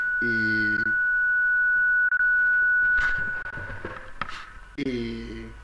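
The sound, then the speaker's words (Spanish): A steady high-pitched electronic beep holds unbroken for about three and a half seconds beneath people talking, then cuts off while the voices carry on. “Perdón por el pitido.”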